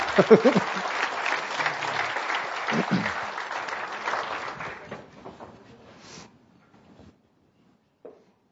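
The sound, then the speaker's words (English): Audience applause welcoming two panelists to the stage, a steady wash of clapping that gradually thins and dies away, leaving near silence at the end. “I'd welcome both of them up to the stage so we can get started. Please give them a hand.”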